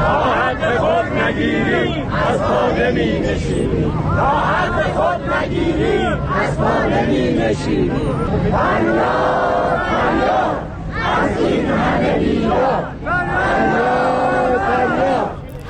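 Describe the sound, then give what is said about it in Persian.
Protesting retirees at a rally chant slogans together, a loud, continuous crowd roar of many voices rising and falling in rhythmic waves. “بازنشستگان تجمع کننده همچنین شعار دادند:”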